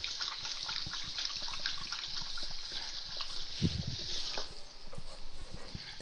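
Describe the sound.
Running tap water at a kitchen sink as someone washes their hands while cooking, a steady soft trickle and splash with one brief louder splash partway through.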